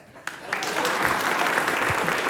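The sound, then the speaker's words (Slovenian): Audience applause from a crowd clapping on cue: a brief quiet lead-in, then a sudden onset of dense, steady clapping that holds at an even level to the end. “Ajde zdaj, publika, pa druga polovica, aplauz.”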